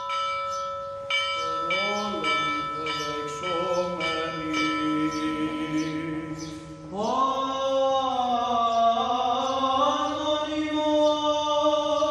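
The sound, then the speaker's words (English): Church bells and sung tones at a Sunday morning liturgy in a monastery chapel on a tiny island. Repeated bell strikes ring out, overlapping long, gliding voices, and a fuller sustained chant takes over partway through and holds to the end. “This is the sound of a Sunday morning liturgy in the chapel of the Halki Monastery on the tiny island of Hebeliada.”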